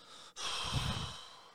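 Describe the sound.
A voice imitates a three-year-old boy's reluctant deep breath: one long, breathy, sigh-like exhale, soft and alone after a brief pause.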